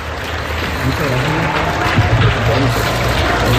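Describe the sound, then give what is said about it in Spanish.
Applause from an audience at a recognition ceremony honouring parking meter authorities, a dense, even wash of clapping with people talking over it throughout. “Y un fuerte aplauso para ellos.”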